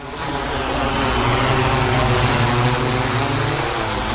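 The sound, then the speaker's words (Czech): Steady, loud buzzing whine from a drone with a thermal camera flying over meadows in the early morning before mowing. The hum swells in briefly at the start, then holds a constant, continuous drone. “Dobrovolníci proto před začátkem sečí v brzkých ranních hodinách monitorují louky pomocí dronů s termokamerou.”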